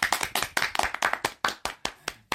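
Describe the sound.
Clapping for a birthday: a small group claps in a run of crisp, evenly spaced claps that grow slightly sparser toward the end, with no talk over them.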